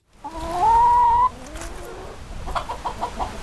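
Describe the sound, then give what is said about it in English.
Chickens at a poultry farm in Highgate Springs: one loud, drawn-out squawk with a wavering pitch, followed by a quieter run of short, repeated clucks. “VPR's Peter Hirschfeld recently caught up with one of these farmer veterans at a poultry farm in Highgate Springs.”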